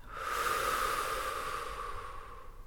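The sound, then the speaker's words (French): A deep breath taken during a relaxation exercise: one long, soft, airy rush of breath that swells early and then tapers slowly, heard alone. “nous allons prendre une profonde inspiration. Et à l'expiration, relâcher.”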